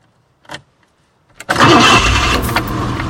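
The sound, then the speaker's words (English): A car engine starts after the key is turned in the ignition: a faint brief click, a short crank, then the engine catches into a loud, steady running rumble. “gets into the car and puts his key in the ignition.”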